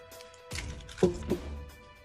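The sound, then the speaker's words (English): Dice tumble out onto a surface in a few quick, sharp clatters and taps, with a short rattle between them that trails off. “Dump dice out.”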